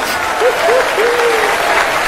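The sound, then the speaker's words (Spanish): Applause from an audience during a religious worship service: dense, steady clapping that holds at an even level from start to finish. “Oh, te aplaudimos por tu grandeza, Rey.”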